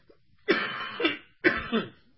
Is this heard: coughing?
yes